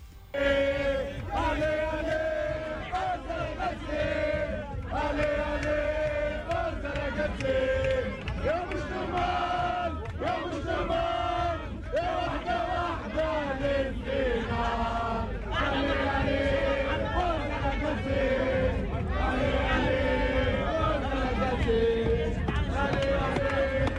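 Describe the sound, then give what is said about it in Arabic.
Tunisian football fans gathered at their national team's residence chant and sing together in a loud, continuous crowd roar, with a steady rhythmic pulse throughout. “هذا الجمهور التونسي”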